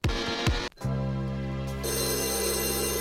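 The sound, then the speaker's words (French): An old telephone bell rings in brief bright bursts at the very start of a song about the telephone. Steady sustained music then takes over. “Mais parce qu'à l'époque, c'était quand même révolutionnaire le téléphone. Ouais, y a plein de tubes de téléphone. Ouais. Bon, écoute la sonnerie du début.”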